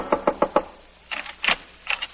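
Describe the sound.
Frantic knocking on an apartment door opens with a quick run of four raps. Sharper, higher knocks follow in uneven clusters after a short pause.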